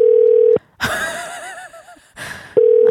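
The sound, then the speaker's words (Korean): Telephone dial tone while a call is placed: a loud, steady, low hum cuts off abruptly, gives way to a brief warbling electronic passage, then resumes. “네, 전화 한번 걸어볼게요. 한번 걸어보자요.”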